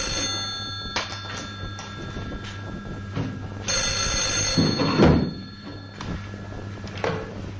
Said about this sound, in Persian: روزبه تلفن رو جواب نمیده